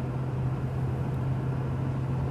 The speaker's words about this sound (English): As you can hear, I'm driving. I'm driving to the farm.